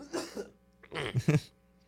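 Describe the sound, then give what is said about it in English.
Coughing from someone with an odd, persistent cough: a few harsh, breathy bursts, a pair and then a quicker cluster after a short gap, fairly faint. “I just have this weird cough going on.”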